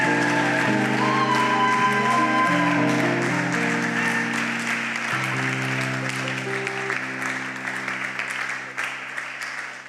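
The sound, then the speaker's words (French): An audience applauds to welcome an elder at a church service. Scattered clapping sounds over sustained keyboard chords that shift in steps, and the sound eases off slightly toward the end. “que nous puissions acclamer et accueillir notre ancien, le papa Bukungika.”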